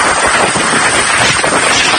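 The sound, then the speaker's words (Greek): Hurricane Isaias winds: a loud, steady rushing roar of wind buffeting the microphone, broad and unbroken throughout, with no voices. “This is brutal. This thing is a beast, and having 3 hours of winds like this is most certainly going to do significant damage here.”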